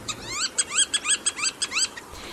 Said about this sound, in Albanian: Ndërsa ky ishte tingulli i gjelzës me bishtëzi, një tjetër vizitor e rregullt në Portugali